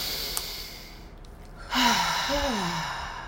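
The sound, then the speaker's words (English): A deep breath taken during a guided breathing pause: a soft breathy stretch swells into a fuller breath, followed by a faint voiced sigh that wavers downward. “Let's take a deep breath, y'all.”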